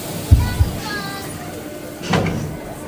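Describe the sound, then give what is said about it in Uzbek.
Metro train doors closing at a stop on the line toward Chilonzor station: two dull thumps come early, then a broader hissing thud follows about two seconds later. “Eshiklar yopiladi. Keyingi bekat Chilonzor.”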